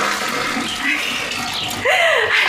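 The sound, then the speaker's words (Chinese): A toilet flushes with a loud, steady rush of water that swells slightly toward the end, with no talking. “忘了忘了，呀，忘冲水嘞。”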